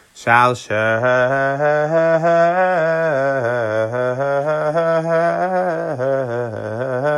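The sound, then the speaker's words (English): A single voice chants the shalsheles Torah cantillation note. It holds one long melismatic tone with repeated wavering pitch undulations, loud and unaccompanied. “So a shalsheles, just for those that are not familiar, sounds like this.”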